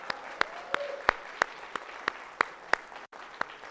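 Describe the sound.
Church audience applauding a couple graduating with nursing degrees: soft background clapping with a run of about ten sharp, evenly spaced claps standing out above it.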